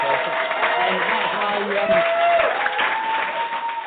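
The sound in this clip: Studio audience applause sound effect opening a radio show: dense, steady clapping and crowd cheering that holds at an even level throughout.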